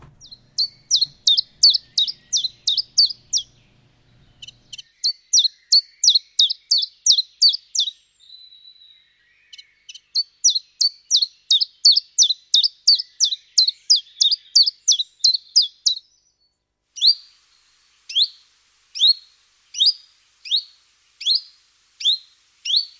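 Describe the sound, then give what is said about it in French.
A common chiffchaff sings its two-note chiff-chaff song: many high, clipped notes in steady repeated series separated by short pauses, with the final series slower and more widely spaced. “vous nous avez fait découvrir le pouillot véloce, l'invisible mais audible donc”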